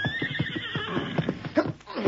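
A horse neighs in a loud, high whinny that slides downward in pitch, followed by further snorting, breathy calls.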